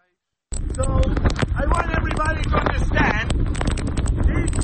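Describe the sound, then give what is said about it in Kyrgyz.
Hurricane Dorian's winds roar on Nassau island in the Bahamas, about 128 km from the storm's center, buffeting the microphone in a loud, continuous gusting rush after a brief silence, with a voice partly audible beneath. “Биз азыр Дориан ураганынын чок ортосунан 128 чакырым алыстыкта туруп ушундай шамалды сезип жатабыз.”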